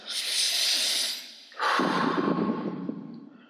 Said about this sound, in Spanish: Vamos a concentrarnos. Vamos a respirar otra vez.